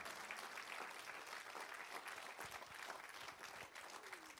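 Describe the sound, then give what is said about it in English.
Applause from a church audience during a revival service, a dense, steady wash of many hands clapping that stays loud and even throughout, with no voices standing out. “Somebody give the Lord a well-deserved hand clap of old-timey praise.”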